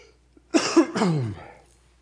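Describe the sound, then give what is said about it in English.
Coughing and throat clearing from a person with a hoarse, croaky voice: a couple of rough, harsh bursts in quick succession, then quiet. “Thank you for bearing with me in my coughing and my frog-sounding voice.”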